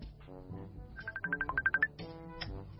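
A phone ringtone plays as a quick run of pulsing, pitched beeps set among faint melodic tones, rising and falling in short bursts.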